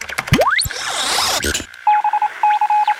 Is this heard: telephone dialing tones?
yes